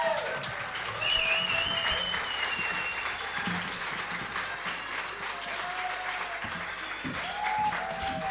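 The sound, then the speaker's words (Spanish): Audience applause fills a concert event with dense, sustained clapping that stays loud and steady throughout. “Fuerte el aplauso para Andrea Bazán”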